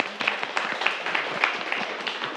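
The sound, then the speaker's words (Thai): Students clap for a classmate in a school lesson, a short run of scattered, sharp handclaps in an uneven rhythm that stays fairly light. “เอาล่ะนักเรียนปรบมือกับเพื่อนเลยนะครับ”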